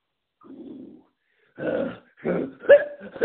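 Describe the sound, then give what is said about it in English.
A man clearing his throat: a few rough, low, guttural rasps in short separate bursts, the last ones picking up a slightly voiced, grunting tone. “Excuse me, I just cleared my throat.”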